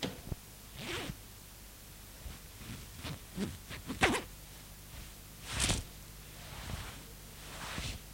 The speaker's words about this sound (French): Elle défait la fermeture à glissière de sa robe qui tombe à terre.